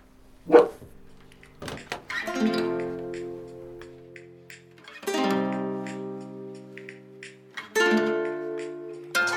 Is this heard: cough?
no